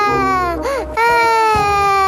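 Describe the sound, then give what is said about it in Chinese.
A small child cries in a loud wail with a bending pitch. The cry breaks off briefly, then resumes in a long, sustained note. “怎么有小孩的哭声？”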